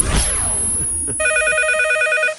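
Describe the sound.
An electronic telephone ring, a bright warbling pulsed tone lasting about a second, comes after a short noisy rush of sound.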